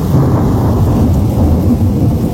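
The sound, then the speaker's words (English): Heavy rain and rolling thunder from a thunderstorm, recorded from a back door onto a deck at home: a dense, loud, steady low rumble under continuous rain hiss throughout. “A thunderstorm rolls through, heavy rain, lightning, and thunder.”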